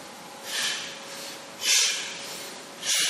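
Three sharp, forceful exhales through the nose during a twisting breathwork exercise. Each is an airy hissing puff, evenly spaced, with quiet pauses between.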